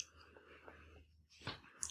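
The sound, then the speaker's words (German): Faint, moist chewing on a bite of the dark layer of a two-layer cheesecake, with soft smacking and a few small clicks of the mouth and no speech. “Jetzt probiere ich die dunkle Schicht.”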